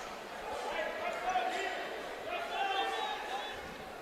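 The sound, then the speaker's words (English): A basketball dribbled a couple of times at the free throw line by a Bulldogs player in a college game before his second attempt, the bounces faint under steady commentary. “He'll have another. Couple of dribbles, a spin in the left hand, shot it.”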